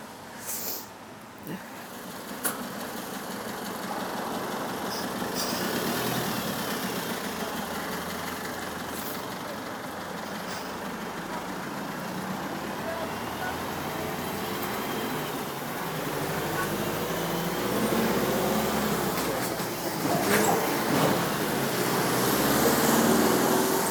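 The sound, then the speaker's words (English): Road traffic on a village road, heard while crossing it, makes a steady, continuous rumble of engines and passing vehicles that stays moderately loud and swells slightly toward the end. “we're coming up to the road that I'm about to cross, so it's going to be a little bit noisy now.”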